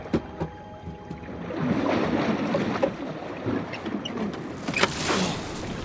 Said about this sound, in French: Tintin, Milou et Philémon Cyclone ont été enfermés dans des sarcophages, puis jetés à la mer.